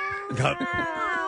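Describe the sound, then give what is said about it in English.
A house cat meows with a drawn-out, wavering tonal call that stays faint but clear from start to finish. “What is the noise I'm hearing? That was my cat.”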